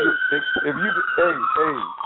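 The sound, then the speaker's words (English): A siren in a caller's background wails steadily and high under a person talking over a thin, phone-like line. “Hold on. I got somebody with a siren there. Somebody call the police or something?”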